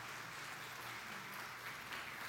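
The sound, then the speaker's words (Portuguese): Applause from an audience during a church service, praising God for visiting friends: a steady, faint wash of many hands clapping continuously with no break. “Agora vamos aplaudir o nosso Deus pela vida desses amigos visitantes.”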